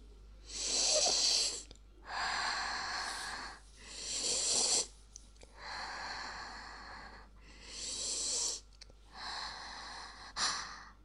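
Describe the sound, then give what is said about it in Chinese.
Deep breathing and sniffing as a daughter holds her father's feet to her nose: about six long, loud, airy breaths in a slow, steady rhythm, with no talk. “女儿现在把爸爸的脚捧起来放在鼻子下深呼吸吻了”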